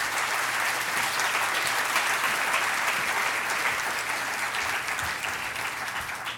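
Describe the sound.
Audience applause welcoming a speaker to a library author event: dense, steady clapping from a crowd that holds at an even, fairly loud level throughout and eases only slightly at the end.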